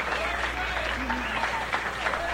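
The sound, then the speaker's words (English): An audience breaks into applause and cheering for the egg at a speaker's urging: a steady wash of clapping and crowd noise, with a voice carrying over the top. “we ought to give the lowly egg one round of applause. Hooray for the eggs! Hooray! Come on, let's hear it!”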